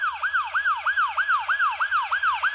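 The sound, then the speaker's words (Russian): Ambulance siren wailing in a fast repeating yelp, about nine quick sweeping cycles rising and falling in pitch, loud and alone over a low engine hum. “Следом послышался вой сирены.”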